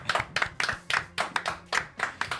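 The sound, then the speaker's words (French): Rhythmic applause for two musicians from a tribute band quartet: many sharp, evenly spaced claps in a steady beat, clear and alone, with no voices over them. “et on les applaudit.”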